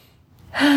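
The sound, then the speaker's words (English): A single big, deep breath drawn in during a guided tapping exercise. It starts near-silent, then swells into a loud, breathy rush that holds steady to the end. “Big deep breath.”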